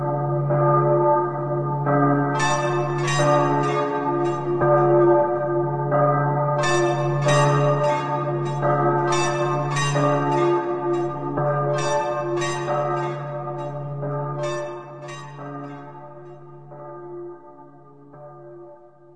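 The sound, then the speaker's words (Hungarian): A church bell tolls in repeated clusters of bright, ringing strikes, each decaying slowly over a constant low drone, with no voices. “S a mennyei harang húzatlan kondulik.”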